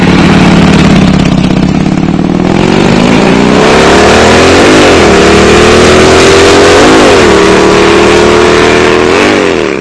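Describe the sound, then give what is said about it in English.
A car engine revs loudly as the driver is hard on the clutch, the drone climbing in pitch then jumping in a few sharp blips, the engine roar steady and heavy throughout. “Wow, he's a little hard on the clutch.”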